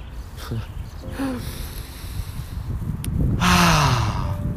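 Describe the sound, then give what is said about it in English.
Deep breathing in and out during a guided breathing exercise: a few slow, airy inhales and exhales, with a voiced, sighing exhale near the end over a steady noisy background. “Breathing in, breathing out. Exhaling toxins.”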